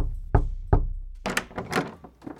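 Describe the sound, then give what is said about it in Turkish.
Two heavy knocks on a house door at night, low and thudding, evenly spaced, followed by fainter rustling and shuffling sounds. “6 Ekim 2020 gecesi iki adam ve İranlı kadın ajanın kapısını çaldığı eve artık varmışlardı.”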